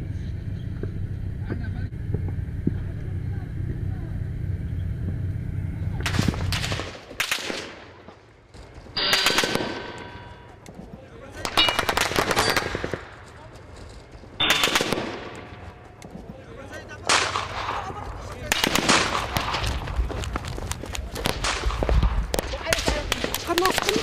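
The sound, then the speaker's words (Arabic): Gunfire at a bridge under attack, many sharp shots and rapid bursts after a low rumbling opening, coming in irregular clusters with brief lulls between them, with voices heard amid the shooting. “The moment I pressed the record button, the bridge came under Daesh fire.”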